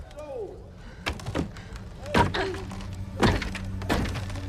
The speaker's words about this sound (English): She bangs on the slats.